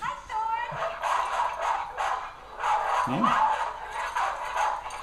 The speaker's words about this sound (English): Why is the dog having a go at her?